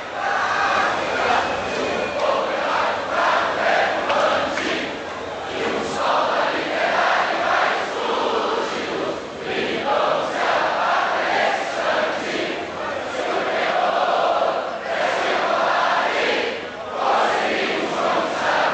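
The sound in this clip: Crowd noise from the packed gallery of Brazil's Chamber of Deputies, where a pro-direct-elections public reacts to a rejected proposal: loud, dense massed shouting and chanting that swells and dips in waves throughout.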